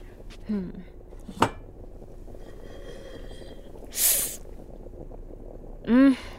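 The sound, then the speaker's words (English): A pot checked on the stove gives a single sharp metallic clank. Brief hissing noises follow, and a short voice sound comes near the end, with quiet background noise in between. “Ooh, I better check on that pot.”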